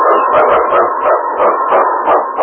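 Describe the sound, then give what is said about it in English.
Husky sled dog barking, the lead dog of a team on the trail in the far North, letting out a loud, rapid, steady run of many sharp barks over a dense continuous background. “On King! On, you husky!”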